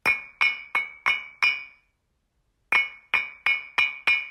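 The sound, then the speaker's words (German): Hard, dry, fired clinker bricks strike together in ten bright, ringing clinks: a steady run of five, a short pause, then five more. Each is loud and high-pitched with a brief glassy ring, and there are no voices. “weil der Zusammenstoß der harten, gebrannten, trockenen Klinkersteine einen hellen Ton, einen charakteristischen Klang erzeugt, der im Übrigen auch ein Prüfzeichen bei der Herstellung ist.”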